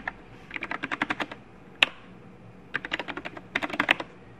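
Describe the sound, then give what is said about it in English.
Soft, rapid keystrokes on a computer keyboard as a host name is typed, coming in two quick bursts separated by a short pause, with one sharper isolated key hit between them. “it helps if I type the host name right.”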